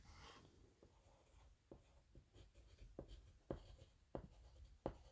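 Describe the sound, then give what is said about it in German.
Handwriting, a pen scratching across paper in a series of short, faint strokes with small pauses between them and no voices. “Also schreibe ich da jetzt Harry Potter.”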